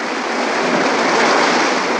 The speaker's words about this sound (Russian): Пенные волны накатывают на берег.